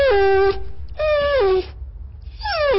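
A female dog in heat whining: three high, tonal whines, each sliding downward in pitch, separated by short pauses, with the last one cut off.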